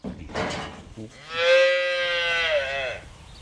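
A cow moos on a dairy farm at Orini, northeast of Hamilton, during calving season. One long, loud, drawn-out low moo follows a shorter sound at the start.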